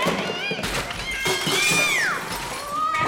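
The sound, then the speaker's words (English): A cat meowing: a drawn-out, high meow that slides down in pitch toward its end, over a busy background of other noise. “I think it's a cat.”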